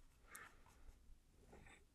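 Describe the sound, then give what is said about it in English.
Faint scratchy strokes of someone drawing a person by hand, a few short soft bursts separated by quiet gaps, with no talking. “I'm trying to draw a person, but they look really bad, so I'm starting over”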